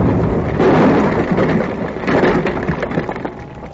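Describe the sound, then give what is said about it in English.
A large load of dynamite explodes in a loud, sustained roar, a dense rumbling and crackling wash with no single sharp blast that slowly eases off toward the end. “Not only is that the end of Bill Crane, with that much dynamite blown up and wasted, that may mean the end of everything in this valley.”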